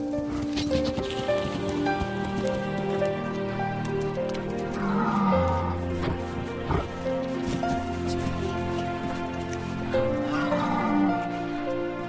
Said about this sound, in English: A herd of reindeer walk down the street.